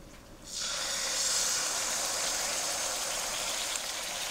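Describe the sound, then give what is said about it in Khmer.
Sizzling hiss as thick, undiluted coconut cream is added to a pan. A short quiet moment comes before a sudden onset, then a steady, bright sizzle holds without a break. “បន្តមកទៀតនេះខ្ញុំសូមដាក់ខ្ទិះដូង”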